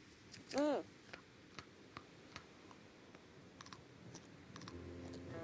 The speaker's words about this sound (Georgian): მეგობრებო, ცხოვრებაში პირველად ვსინჯავ ახალ მოკრეფილ წყალმცენარეს ატლანტიკის ოკეანიდან.